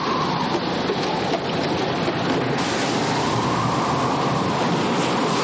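Sea waves crash over a ship's deck in a Second World War adventure film: a loud, continuous roaring wash of water with no break or clear rhythm.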